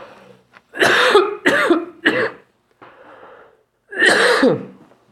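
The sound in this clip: Coughing from a tickle in the throat: three quick, harsh coughs in a row, a short pause, then one more loud cough.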